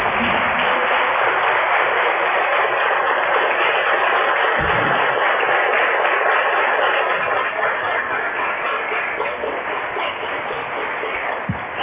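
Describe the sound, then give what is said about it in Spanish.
A crowd applauding during a minute of applause at a public tribute: dense, steady clapping that stays loud and even throughout, with no talk. “yo quiero pedir hoy, en este momento, un minuto de aplausos”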